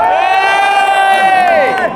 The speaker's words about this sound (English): Jags fans and people who are going to cheer for the Jags tomorrow.